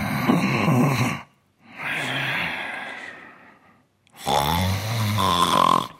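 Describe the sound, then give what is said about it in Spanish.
A voice imitates snoring: three drawn-out, rasping, throaty snores separated by short pauses, the last one loudest and most guttural. “Voy a hacerle roncar.”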